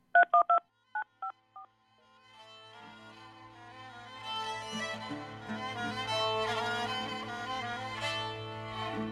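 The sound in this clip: Keypad tones of a telephone number being dialed: several quick, clear beeps of shifting pitch packed into the first two seconds, then a steadily swelling, sustained background sound that fills the rest.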